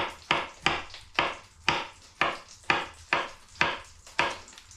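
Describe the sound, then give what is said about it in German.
A knife slices through soft button mushrooms in a regular series of crisp, evenly spaced strokes, each a short sharp attack that fades quickly. The cuts are moderately quiet and come with no talk. “Und du siehst, wie einfach das geht, weil Champignons ja auch so schön leicht zu schneiden sind und weil sie so weich sind.”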